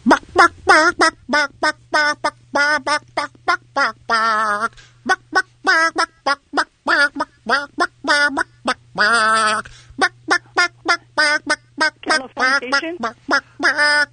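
Chicken squawks are strung together to carry a rock song melody, with many short rhythmic nasal honks at shifting pitches, some held longer, all over a faint steady low hum.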